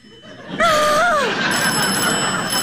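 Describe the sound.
A telephone rings for a trunk call with a warbling, bell-like tone that enters sharply just over half a second in and wavers for under a second, then a steady bright hiss carries on to the end.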